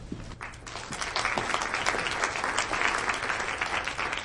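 Clapping from an audience at a university MFA program reading welcomes a graduate student to the podium, a dense, even wash of many hands that holds steady and slightly swells.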